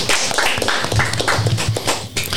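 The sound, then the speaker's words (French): Clapping from a small group at a residents' Christmas get-together where a bûche de Noël was shared, with irregular, fairly loud hand claps of uneven rhythm rather than a smooth wash. “Bravo, on peut l'applaudir également.”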